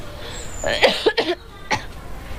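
Coughing from cigarette smoke: a short fit of several harsh, raspy coughs in quick succession, then one more after a brief pause, loud and alone.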